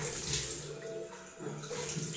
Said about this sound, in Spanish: me estoy lavando la cara, por eso me quedo callado un momento.